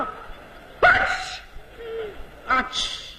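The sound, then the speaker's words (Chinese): A voice imitates a sneeze in the Beijing manner during a comic routine: two sharp, breathy bursts with a brief low vocal murmur between them. “北京人打喷嚏。”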